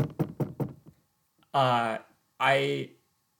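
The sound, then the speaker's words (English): Knuckles knocking on wood, four quick hollow raps in a steady rhythm, followed by a voice speaking. “So this is me knocking on wood.”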